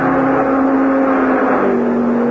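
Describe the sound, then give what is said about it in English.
Race cars roar past on a test track with a loud, steady engine drone that holds a strong, even pitch. A lower tone joins in near the end. “but the people watching the test winced as the cars thundered by, just as if they expected the autos to fall apart any second.”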